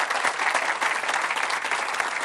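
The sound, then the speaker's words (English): An audience applauding, with dense, steady clapping that fills the whole stretch evenly, with no talk over it. “Give Todd a big round of applause, please.”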